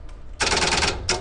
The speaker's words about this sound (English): you actually hear the sound of the selector that you would hear if you were standing in the CO, which would sound like this.